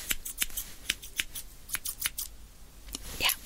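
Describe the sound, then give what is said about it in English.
Scissors snip through hair in many quick, crisp clicks at an uneven rhythm, faint and with no one talking. “I'm sure I didn't cut any of your hair.”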